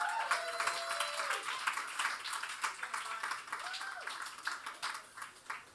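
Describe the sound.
Audience applause greeting two contestants as they are welcomed onstage, quiet and crackly, with many claps in irregular bursts that thin out toward the end, and a voice faintly over it.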